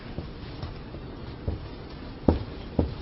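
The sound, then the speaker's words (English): Someone writes the word Samson by hand, heard as a few soft scratchy taps and strokes over faint steady background noise, with no talking. “I'll just write the word Samson here, right?”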